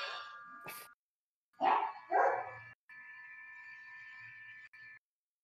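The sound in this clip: A dog barks twice in quick succession, sharp and fairly loud, alongside a few other brief tonal sounds.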